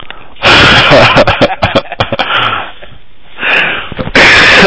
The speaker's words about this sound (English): don't cough into the mic